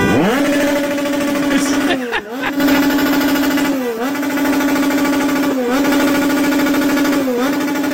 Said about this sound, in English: That was a motorcycle. They're revving a motorcycle.